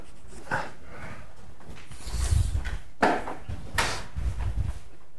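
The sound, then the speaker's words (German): Chalk scratches and taps on a blackboard in a few short, gritty strokes at moderate loudness, with no voices. “Kreide. Wann hatte ich das letzte Mal Kreide in der Hand? Das ist schon lange.”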